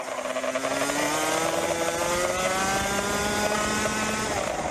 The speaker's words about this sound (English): Footage from a camera on board Fabian Lans's 125cc kart shows her racing on a track in Florida, the United States, at speeds sometimes reaching 100 miles per hour.